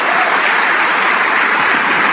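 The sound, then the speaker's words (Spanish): Loud, steady applause from a church audience clapping for the King of Kings. It forms a dense, continuous wash of clapping that holds its level for the whole clip. “Vamos a darle un aplauso al Rey de Reyes.”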